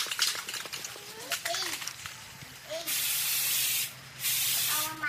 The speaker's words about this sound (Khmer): អ្នកស្រីយកកំប៉ុងថ្នាំពណ៌ខ្មៅបាញ់ទៅលើដង3ដែលព្យួរជាមួយនឹងខ្សែពណ៌លឿង